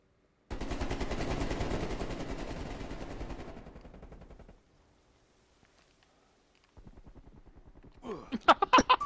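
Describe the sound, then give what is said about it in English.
Rapid automatic gunfire in a shooter video game, a dense sustained burst for about four seconds that trails off, then silence, then quieter rapid fire followed by a few louder, sharp shots. “I'm shooting this wall.”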